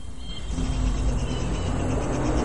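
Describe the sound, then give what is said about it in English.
A bus trundling along a narrow road through a rainforest, its engine a steady low rumble with continuous road noise and no talk. “A bus trundles along a narrow road that cuts through the rainforest.”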